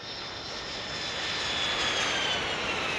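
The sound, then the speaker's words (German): Steady drone of an airplane's engines on a flight to Mozambique: a smooth, even roar that stays fairly quiet and swells slightly in loudness toward the end, with no voices. “Wir fliegen nach Mosambik in den Südosten von Afrika.”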